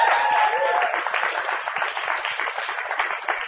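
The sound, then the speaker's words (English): Sustained audience applause at a poetry reading, a dense, even wash of many hands clapping that holds steady at a loud level for the whole stretch without letting up. “Christian, ladies and gentlemen, give him a hand.”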